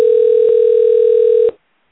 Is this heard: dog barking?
no